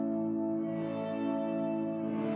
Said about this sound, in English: One setting that I think is cool on this is everything off except reverb, and I've got reverb dimed.